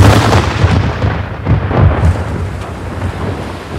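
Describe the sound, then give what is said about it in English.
A ship's cannons fire a full broadside from the port side. The blasts merge into a continuous heavy rumbling roar with deep booms, loud and sustained throughout. “The gunnery sergeant had been waiting for this opportunity and let rip with a full broadside from port.”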